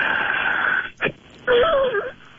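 A patient breathes out hard during a breathing exercise, giving a raspy rush of air, then a longer forced exhale carrying a whistling, rattling wheeze whose pitch wavers.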